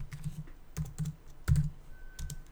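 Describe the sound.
Fingers type on a computer keyboard, a run of irregular keystrokes in small clusters with soft low thuds and brief pauses between, quiet and heard alone.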